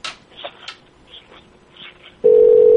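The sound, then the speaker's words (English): A loud, steady, unbroken telephone hold tone starts suddenly after a faint, murmuring background as a call to a business is transferred to another extension. “Please hold while I transfer your call to that extension.”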